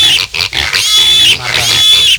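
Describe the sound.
Pig grunts and high squeals play as a loud sound effect, coming in several harsh bursts with short gaps between them.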